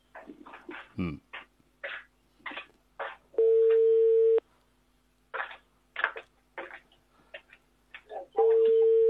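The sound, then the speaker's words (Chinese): A telephone ringback tone plays while a call waits for an answer: a steady low tone lasting about a second, heard twice, separated by choppy bursts of other sound. “电话还是响铃，我们耐心等等哈”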